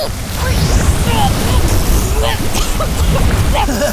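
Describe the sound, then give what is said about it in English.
Loud rushing spray of water from a cartoon water-power blast, a steady gushing wash that fills the whole stretch, with voices faintly over it. “Here, with just a little Starkeeper water power.”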